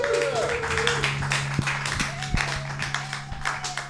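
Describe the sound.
Audience applause for a comedian at a San Francisco comedy open mic: dense, steady clapping with a few sharper individual claps standing out and a brief whistle-like tone near the start.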